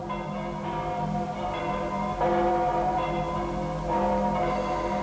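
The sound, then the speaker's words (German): Church bells in London ring in the new year in a dramatized scene. Layered metallic tones hum and sustain, and fresh strikes swell the resonant peal. “Und jetzt läuten die Glocken das neue Jahr ein.”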